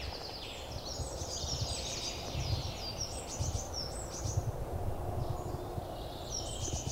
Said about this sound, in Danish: nu tror jeg faktisk, at vi har hørt en, en træløber synge herover på den anden side af stien.